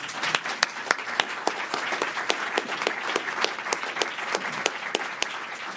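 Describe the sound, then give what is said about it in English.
Audience applause welcoming a speaker: steady crowd clapping throughout, punctuated by many sharp, louder individual claps that stand out at fairly regular intervals. “So please help me welcome John Goicochea.”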